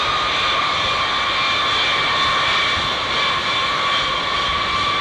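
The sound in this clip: Large aircraft engines running before takeoff on a heavy plane with several sets of landing gear: a loud, steady roar with a high whine layered on top, unchanging for the whole stretch, with no voices.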